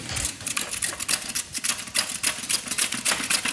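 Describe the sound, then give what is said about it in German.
A knife slices carrots into thin rounds on a cutting board while a meal is being cooked. Many quick, sharp, evenly spaced chopping clicks follow one another in a steady rhythm. “Die Karotten, die werden in feine Scheiben geschnitten.”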